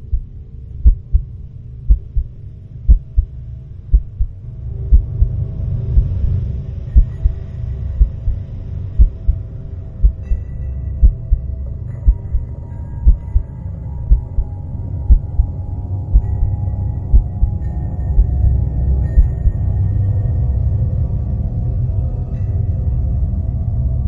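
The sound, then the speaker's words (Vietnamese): A steady heartbeat sound effect: many evenly spaced, low, paired thumps keep a calm, regular rhythm over a continuous deep hum and rumble, with no voices. “mà nàng cũng nghe thấy tiếng tim mình đập từng tiếng rất bình ổn, có thể nói không chút gợn sóng nào.”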